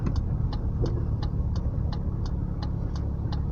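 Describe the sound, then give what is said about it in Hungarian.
A truck engine gives a steady, loud low rumble throughout, with a regular series of sharp ticking clicks repeating evenly on top of the drone. “Ez egy kamion.”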